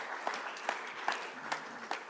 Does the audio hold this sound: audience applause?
yes